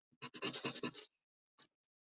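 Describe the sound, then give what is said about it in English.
Lines drawn across a face on paper: a quick, quiet run of short scratchy strokes, then a single further stroke after a brief pause. “Then I'm gonna draw just kind of like lines across the face to that eye is way too big.”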